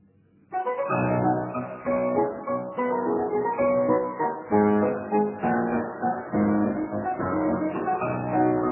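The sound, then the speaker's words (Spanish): Brahms's Waltz No. 1 played on solo piano. After a brief silence, full, resonant chords and a flowing melody come in and continue at a steady, fairly loud level. “Estos valses de Brahms vamos a escucharlos en una versión de la pianista turca”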